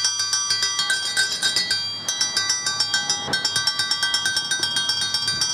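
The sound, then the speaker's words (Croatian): A school bell rings at an outdoor peace commemoration beside a memorial to executed pupils and teachers, sounding as many rapid, bright metallic strikes in a steady run with a brief break partway through. “i ove jeseni počela je zvonjavom školskog zvona”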